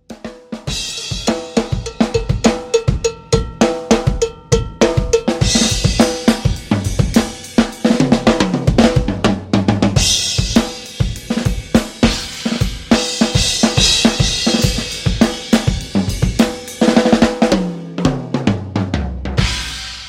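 Acoustic drum kit played loudly in a room, many punchy kick, snare and tom hits in a steady driving rhythm with washing cymbals and audible room decay ringing between strikes, no voices.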